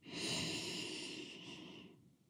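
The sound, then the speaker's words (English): A slow, deliberate inhale made as a paced breathing exercise, one long airy hiss that swells quickly, holds, then gradually fades, with no talking. “You breathe in for 4, like this.”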